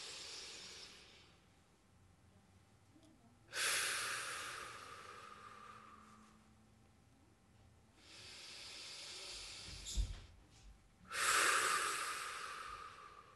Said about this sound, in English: Maybe we all need to take a collective deep breath. Maybe as our minds have been racing, let's take a deep breath together.